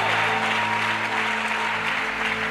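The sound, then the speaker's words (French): Church audience applauding to acclaim the Lord after a scripture reading: a brief, even burst of many hands clapping at a steady level throughout, with a low sustained hum underneath. “Oui, on peut acclamer le Seigneur pour la victoire.”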